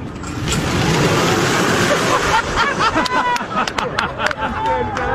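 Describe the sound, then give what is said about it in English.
An electric car accelerating hard from 0 to 60 mph, heading for 80 mph, gives a loud, steady rush of road and wind noise that fills the whole clip, with voices exclaiming over it. “if we're going 0 to 60 in about 4.4, I'm just going to step on it. I'll come off at 80 miles an hour.”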